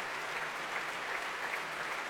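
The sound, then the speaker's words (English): A full Royal Albert Hall applauds the West-Eastern Divan Orchestra at the Proms after Beethoven's Pastoral Symphony. Dense, continuous clapping forms an even wash of sound, fairly soft and steady with no breaks. “Daniel Barenboim, accepting this applause from a full Royal Albert Hall, conducted the West Eastern Divan Orchestra.”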